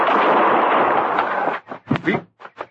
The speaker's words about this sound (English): You shot him. Of course I shot him.